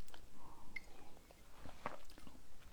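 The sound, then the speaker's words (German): A quick sip of a drink, with soft, wet mouth and swallowing noises repeating faintly over a couple of seconds and no talk. “ich trinke mal ganz kurz einen Schluck.”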